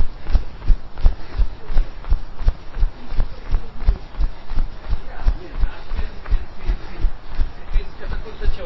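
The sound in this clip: Fast running in place during a workout, high knees followed by jogging: a steady, rapid run of many dull, even footfalls thudding on the floor.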